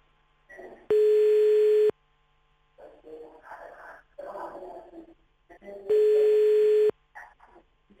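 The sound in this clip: Ringback tone of an outgoing telephone call: two steady, buzzing one-second tones about four seconds apart, with people talking quietly in the gap between them.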